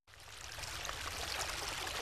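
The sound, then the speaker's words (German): Water of a small stream babbles as it runs through a green meadow near a city centre, a steady, full rush of splashing and trickling that begins abruptly and continues evenly without pause. “Hier plätschert der Wellritzbach.”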